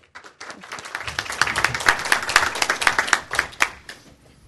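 Audience applause welcoming a professor before a lecture on an unbuilt 1924 skyscraper design for Rome. Clapping swells quickly after a brief opening, stays thick and lively with many crisp claps, then thins out near the end.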